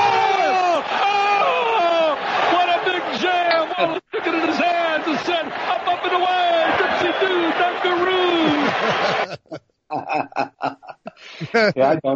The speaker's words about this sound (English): Pete, do you know about the new sound clip that we've got added to the podcast? Basically, whenever somebody gets dunked on, and since you just dunked on Debo.